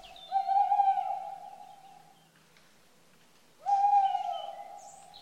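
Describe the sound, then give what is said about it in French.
A tawny owl hoots twice in Paris. Each hoot is a long, steady, mellow tone at an even pitch that fades out, and a few seconds of quiet separate the two calls. “Aujourd'hui, la chouette hulotte.”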